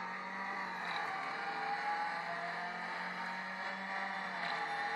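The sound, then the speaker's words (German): A racing car engine drones from an iPad racing video game in cockpit view with automatic throttle: a fairly quiet, steady, buzzy tone with a slightly wavering pitch and no talk. “Er gibt automatisch Gas und du bremst nur, ja? Wir haben die Cockpit-Perspektive, die beim iPad auch total Sinn macht.”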